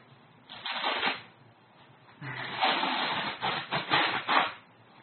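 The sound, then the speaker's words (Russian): Adhesive tape is pulled off during a sound-guessing game: a short ragged rip comes first, then a longer, rougher tearing stretch that surges several times before stopping. “Это пластырь, ну не пластырь, а липкая лента.”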